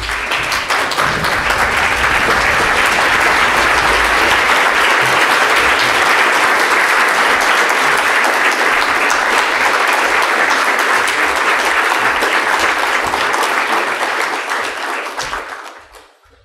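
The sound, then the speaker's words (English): Loud standing ovation from an audience welcoming Sadhguru, a dense, sustained roar of clapping that holds steady for about fifteen seconds before tapering off quickly at the end. “Can we please give him a standing ovation? Welcome, Sadhguru.”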